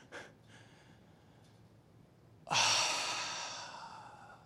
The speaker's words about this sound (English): A groan is a universal language. And what do you think this means in Togo?